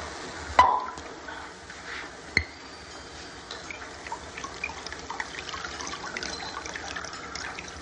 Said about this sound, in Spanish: camarero descorcha y sirve.